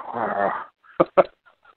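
A dog in a video game whimpers with a strained, wavering whine, followed by two short, sharp bursts and then faint traces of sound.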